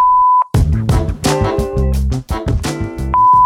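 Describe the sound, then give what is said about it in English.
An answering machine sounds its steady, pure voicemail beep tone at the start. A loud, busy passage of rich harmonic sound follows, and then the same clear beep returns at the end. “If you have some feedback for us, leave it after the tone.”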